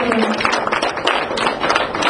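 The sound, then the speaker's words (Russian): Audience applause for teachers, a dense, steady patter of many hands that holds for the whole stretch, with voices mixed in. “Давайте мы им поаплодируем. Давайте поприветствуем наших учителей. Они аплодируют, они”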